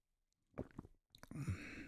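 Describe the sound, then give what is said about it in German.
A sip of green tea: soft mouth noises, then a noisy, drawn-in slurp lasting under a second. “ich bekomme einen wahnsinnig leckeren Schluck Grüntee.”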